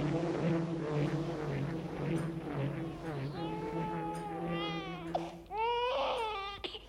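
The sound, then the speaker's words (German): A child cries in drawn-out, wavering wails that become clearer and louder in the second half, over a low, steady droning hum. “Warum schreit dieses Kind noch immer?”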